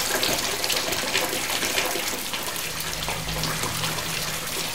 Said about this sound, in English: The tap continues pouring water as the soapy liquid on the floor spreads from the room.